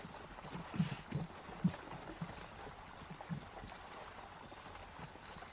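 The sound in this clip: Horse hooves clip-clopping in a video game: a few soft, irregular hoof steps, faint and low, over a quiet steady hum.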